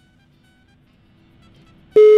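A loud, steady electronic telephone tone from an unanswered call cuts in abruptly at the very end after near silence, holding a single pitch with bright overtones.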